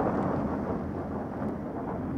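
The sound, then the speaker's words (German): Deep rolling thunder and a dense, rain-like hiss from a heavy storm approaching over a lake in a warm föhn wind, forming a continuous low rumble with no breaks. “Ein schweres Unwetter ist im Anzug.”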